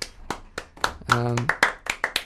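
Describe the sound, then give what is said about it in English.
One person claps their hands for their own joke, giving many sharp, evenly spaced claps with a brief voiced sound in the middle. “That was, if you're wondering, that was just me clapping for my own joke.”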